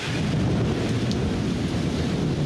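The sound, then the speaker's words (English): Rain and thunder from a thunderstorm over Manhattan at night: a steady, loud, dense roar with a heavy low rumble underneath, continuous throughout without clear breaks. “This is the sound of that rain, the rain of 9:10, captured on video by a man named Andres Barilla.”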